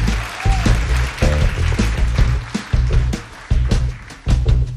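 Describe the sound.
An audience applauding at a live music event, a dense, uneven clatter of many hands that rises and dips in waves. Low-pitched tones sound underneath the clapping.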